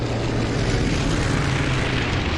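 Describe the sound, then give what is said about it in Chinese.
Propeller engines drone as C-47 transport planes take off towing gliders, some hauling two at once. A loud, steady, unbroken roar continues throughout with no voices. “性能优越的 C-47 运输机牵引滑翔机起飞，有的运输机甚至要牵引两架滑翔机，以至于起飞时显得有些笨重。”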